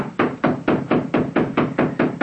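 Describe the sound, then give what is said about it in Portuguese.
Knocking on the door of a dilapidated, falling-apart shack: nine loud, evenly spaced raps in a steady rhythm, with no voices. “Deixa eu bater outra vez.”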